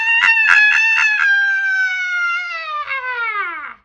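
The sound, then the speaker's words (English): A human voice imitates a demon screaming as it leaves a possessed man: a long, high harmonic wail that opens with a few sharp pulses, then slides steadily downward in pitch and cuts off. “The unclean spirit shook him and screamed,”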